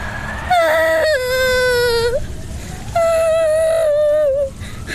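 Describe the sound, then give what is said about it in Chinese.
A woman bursts into loud crying: two long, high-pitched wails, each held for nearly two seconds with a short pause between them. “春燕又羞又怒，忍不住大哭起来。”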